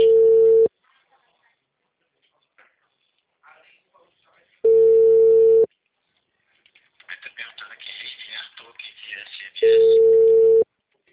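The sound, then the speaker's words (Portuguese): Telephone line tones sound while a call is placed, with three steady mid-pitched beeps spaced about four seconds apart. Faint voices and small noises fill the gaps, most clearly just before the last beep. “Deixa eu só perguntar aqui. Vou ligar para ele.”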